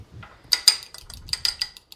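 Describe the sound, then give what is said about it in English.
A fork beats an egg in a bowl, making a quick run of light metallic clicks and taps against the dish that is faint and uneven, with no voices over it. “So you crack it into a bowl. I'm going to just use a fork and beat it up a little bit”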